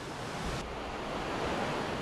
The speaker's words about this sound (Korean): 거센 계곡의 물소리를 들으며 무사히 볼일을 마쳤습니다.